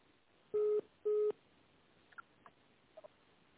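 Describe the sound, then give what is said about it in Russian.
Two short telephone keypad tones, dialing a menu option on a heating and hot-water utility's phone line, sound loud and steady in quick succession, followed by a few faint clicks on an otherwise quiet line. “Для соединения с отделом начислений за тепло и горячее водоснабжение наберите цифру 1.”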